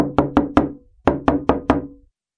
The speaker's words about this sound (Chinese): 第二天早上，又有人在急急地敲着门。